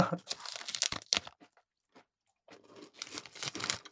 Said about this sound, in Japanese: めちゃくちゃサクサク。 これぞクッキー。